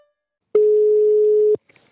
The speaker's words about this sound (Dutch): Zullen we die bellen? Die kan... Ja, laten we die bellen. Bellen met een diabetes-expert.